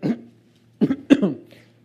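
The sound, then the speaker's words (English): A few short, harsh coughs from a speaker with a lingering cough, coming in quick separate bursts with brief pauses between them and no talk over them. “Excuse me, still have a little bit of a cough.”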